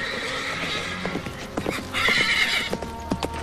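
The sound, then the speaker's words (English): A horse gallops back and rears. Its hooves clop in an uneven run, then a loud, high whinny rings out, followed by a few scattered hoofbeats as it stops. “Tyler's horse gallops back up to him, stops, and rears.”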